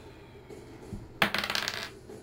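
Twenty-sided dice are rolled onto a table during a tabletop role-playing game. A sharp clack is followed by a quick, rattling clatter of bounces that fades out within about a second, over a faint background hum.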